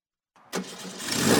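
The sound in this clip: Van engine starting, with no voices: a short crank gives way to a sudden catch, then the motor settles into a rough running note that grows steadily louder.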